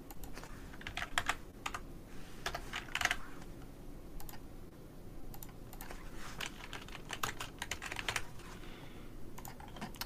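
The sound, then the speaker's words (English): Typing numbers on a computer keyboard: irregular clusters of quick, light key clicks with short pauses between bursts, fairly faint against a soft background hiss. No voices. “Let's type in 56, 54 so we can visually see it.”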